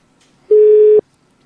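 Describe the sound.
A telephone line tone sounds while a call is being placed: one steady, clean beep of about half a second at an unchanging pitch, alone against silence.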